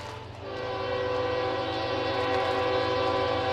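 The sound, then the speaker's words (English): A train horn blares as a train runs past behind the third-base side of a ballpark: a continuous, loud, chord-like blast over a low rumble that lasts the whole clip. “Great train running along behind us on the third base side”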